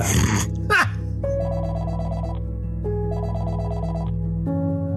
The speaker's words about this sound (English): And the phone rings. Ring, ring. That's the phone.